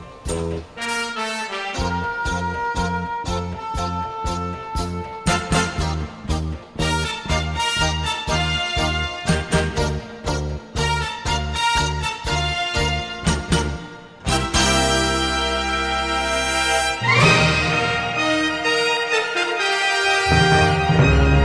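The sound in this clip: Orchestral end-credits theme from a video game plays loud and continuous: a full orchestra drives a steady rhythmic pulse, shifts to sustained swelling chords midway, then surges again toward the close.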